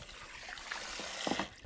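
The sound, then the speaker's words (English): Soft, steady trickling water in a salon, a faint continuous dribble with a few slightly brighter splashes near the end and no voices. “The sound you're hearing is the sound of water.”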